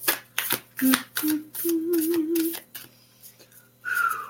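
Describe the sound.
Fairy-themed oracle cards being handled and put away: a quick run of soft papery flicks, taps and slaps, with faint voice sounds partly underneath and a few brief pauses between bursts.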